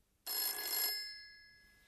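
A telephone rings once with a bright, metallic bell burst lasting just over half a second, then fades out in a slowly decaying tail.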